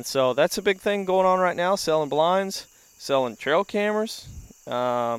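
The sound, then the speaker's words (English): Crickets chirp in a backyard at night, a thin, steady high-pitched trill running beneath men talking throughout. “We're sitting in a backyard once again, and you can hear the crickets singing, and you can hear many, many other bugs.”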